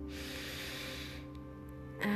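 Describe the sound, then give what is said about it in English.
A slow, deep inhale through the nose during a guided relaxation gives a soft, breathy hiss of about a second. It fades out over a faint, steady, low sustained musical drone. “continue to inhale deeply through the nose”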